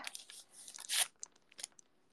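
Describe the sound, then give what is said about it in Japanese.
Disposable wooden chopsticks split apart before a bowl of shoyu ramen: one crisp, splintering crack stands out amid small clicks and light rustles. “割り箸を割りました。”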